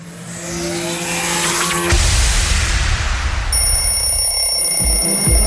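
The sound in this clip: An alarm clock rings loudly and steadily, following a roaring, car-like whoosh with a tire-squeal edge. High sustained tones run through the second half of the sound.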